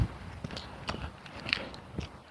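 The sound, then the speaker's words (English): Footsteps crunch over a crusty patch of snow along a street, a few faint, evenly spaced steps, each with a short, crisp crackle. “I'm gonna walk in the street here because I got another patch of this crusty, impossible crap to walk in.”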